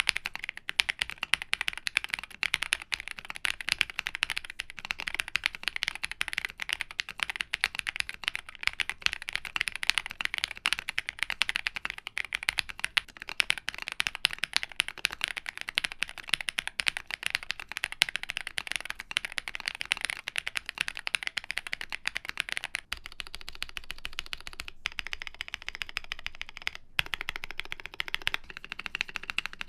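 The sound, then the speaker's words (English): Typing on a Meletrix Zoom65 Olivia mechanical keyboard gives a steady, rapid stream of deep, thocky key clacks that runs continuously for the whole stretch, with no talk over it. “All right, let's see how this sounds.”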